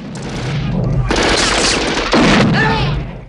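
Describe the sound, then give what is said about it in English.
Shotgun and handgun fire in an action film shootout: loud, dense gunshot blasts fill most of the stretch. A fresh, heavier burst comes past the midpoint and a voice is briefly audible. “then swaps again to a silver Desert Eagle handgun. John drops a soldier with a well-aimed shot, then switches to a shotgun. He blows two soldiers away at once.”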